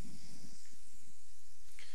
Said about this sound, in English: And now that it's seasoned, flip them.